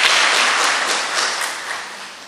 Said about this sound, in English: You can applaud that one.